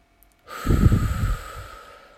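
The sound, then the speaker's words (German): A deep breath in during a guided heart-chakra meditation: a single rushing, breathy inhale that swells quickly and tapers off slowly over about a second and a half. “Atme tief ein”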